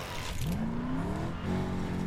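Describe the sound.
Car engine revving in a Lego video game, a tonal motor whine that climbs in pitch and then holds as a steady, fairly loud drone, with no talk over it.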